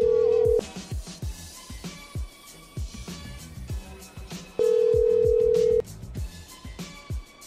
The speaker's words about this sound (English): I'll call him a few more times, then I'll wrap things up.